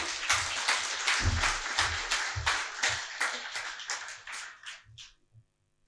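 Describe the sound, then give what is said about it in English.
Applause welcoming a speaker at an event at the Nehru Centre in London: a bright clatter of clapping with a few louder bursts that tapers off and dies out just before the end. “And here is Amish. Please give him a hand.”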